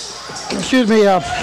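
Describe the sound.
A basketball is dribbled on the court during a high school game between the Neelyville Tigers and Alton, with a few hollow bounces under a commentator's talk.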